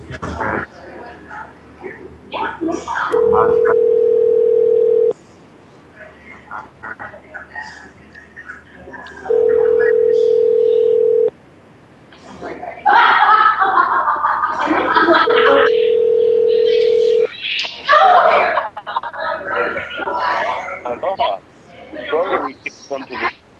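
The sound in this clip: A telephone rings out unanswered: the ringback tone sounds as three long, steady, evenly spaced tones separated by pauses, heard over ongoing talk.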